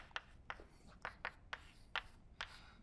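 Writing on a board during a physics lecture produces a string of short, scratchy strokes, faint and sharp, at a brisk, slightly uneven rhythm.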